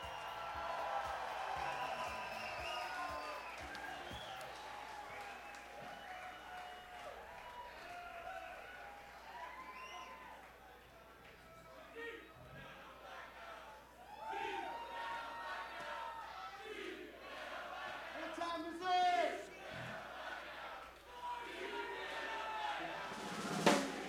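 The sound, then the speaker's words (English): An audience cheers, whoops and applauds as a band is welcomed to the stage, a sustained crowd roar with scattered shouts that dips midway and then swells louder toward the end. “Let's hear some noise, folks. Let's give them a warm, gather the vibes. Welcome for Deep Banana Blackout.”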